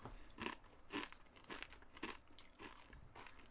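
Chewing and crunching food while tasting it: a faint, steady rhythm of many crisp bites and crunches with no talk.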